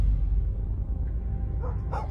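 Dogs barking in a village on a cold, windy night: a couple of faint, short barks come late, over a steady low roar of wind.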